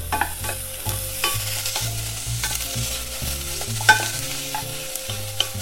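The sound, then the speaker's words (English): Onions sautéing in a pan are stirred, their edges just turning golden, giving a steady sizzle with repeated scraping and clicking strokes throughout and no talk. “So I can already see some of the edges are starting to get golden in color, just slightly. Now I'm gonna give it a stir.”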